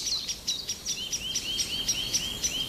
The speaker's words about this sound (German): Da ein Blässhuhn.